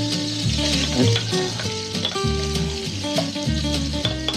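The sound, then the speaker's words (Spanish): Vegetables sizzle in hot oil in a pan: onion, pepper and a few mushrooms. A steady hiss continues throughout, with tonal music playing underneath. “Volvemos a incorporar aceite y agregamos nuestros vegetales.”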